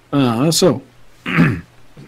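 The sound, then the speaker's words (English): A person clears their throat during a tabletop role-playing game session, making a couple of short, voiced, rasping bursts separated by a brief gap. “Let me clear my throat.”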